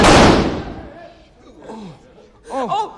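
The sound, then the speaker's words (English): A single loud gunshot from a gun fired at a man during a family confrontation, a sharp blast with a long decaying tail, followed by voices crying out. “Dear God, that man is shot. I didn't mean to shoot him.”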